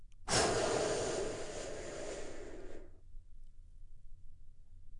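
One big, deep breath drawn in during a guided relaxation moment: a loud, breathy inhale lasting around two and a half seconds, fading slightly before stopping, followed by near silence.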